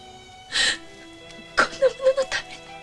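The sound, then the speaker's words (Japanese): A younger sister crying and whimpering: a breathy sobbing gasp, then a quiet pause, then several short, choked whimpers in quick succession. “泣くな。お前に泣き顔は似合わん。”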